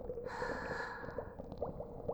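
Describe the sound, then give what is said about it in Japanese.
A deep breath drawn in through the nose: one faint, airy inhale lasting about a second over a low rumble. “さあ、もう一回吸って”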